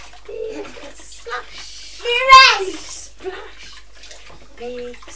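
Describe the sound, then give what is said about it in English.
A child splashing water in a bath, the splashes mixed with the child's high voice vocalising throughout the short stretch. “Have you got home with a sponge now? You're making a big splash.”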